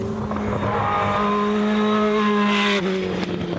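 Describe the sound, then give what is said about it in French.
A Formula 1 car's V8 engine revving high, giving a loud, sustained, buzzing whine that holds a steady pitch and dips briefly near the end. “est-ce que vous l'avez entendu un peu miauler le V8 hein?”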